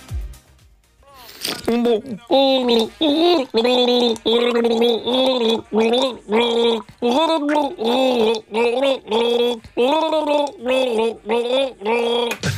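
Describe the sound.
A voice gargles a song, humming the melody through water in the throat. Many bubbly, pitched notes follow a steady rhythm, loud and continuous after a brief sharp onset.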